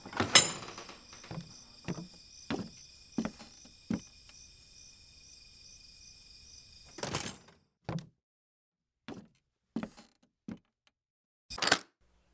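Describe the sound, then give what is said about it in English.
A door being locked: a stretch of steady rattling hiss with many small knocks, then several sharp, separate clicks and thunks spaced apart with quiet between them. No voices. “What the hell did she just. What the fuck? She locked me in.”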